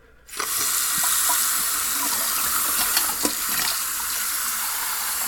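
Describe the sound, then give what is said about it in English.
Tap water gushes into a sink as someone washes greasy hands with soap and water. After a moment of quiet the flow starts abruptly and runs as a steady hiss, broken by a few faint knocks and splashes. “I should probably wash my hands because I've been playing with greasy things over there in the basement.”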